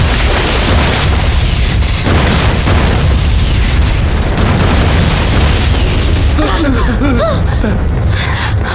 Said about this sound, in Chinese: 是鬼子的大口径迫击炮，起码有十几门呢！